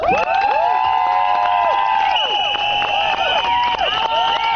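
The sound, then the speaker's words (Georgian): Crowd of women rallying outside parliament for their rights, shouting and whistling in loud overlapping calls with rising and falling pitched cries, continuous throughout. “აი ასეთი შეძახილების და სასტუენების ხმის ფონზე მოითხოვდნენ პარლამენტის წინ შეკრებილი ქალების საკუთარი უფლებების დაცვას.”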